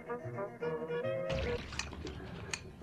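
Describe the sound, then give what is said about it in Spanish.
Tap water running while dishes are washed, a loud, steady hiss that begins abruptly after a short spoken phrase, with occasional sharp clinks on top. “¿Pero qué todavía no acabas de lavar esos trastes?”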